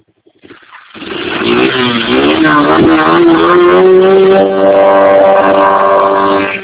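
Engine revving and accelerating: a loud, continuous, rough drone that swells up quickly and climbs in pitch, then holds high and strong for several seconds.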